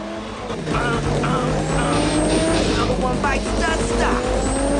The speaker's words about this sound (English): Then they're side by side at the start line waiting to go. Letty nonchalantly pushes her sunglasses up her nose. They race away.